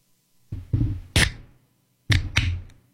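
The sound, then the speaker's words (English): A can of energy drink is opened: a few dull thuds and clicks, with one sharp, hissing crack among them, then two more knocks close together. “Well, I'm going to open an energy drink and it's better.”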